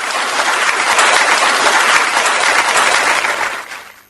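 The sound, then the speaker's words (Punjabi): Applause for children: dense, even clapping that holds steady for about four seconds and then fades at the end. “ਵਾਹ ਜੀ ਵਾਹ, ਤੁਸੀਂ ਤਾਂ ਬਾਲੇ ਸ਼ਹਿਰ ਹੋ, ਤੁਹਾਡੇ ਵਾਸਤੇ ਤਾੜੀਆਂ ਵਜਾ ਦਿੰਦੇ ਆ।”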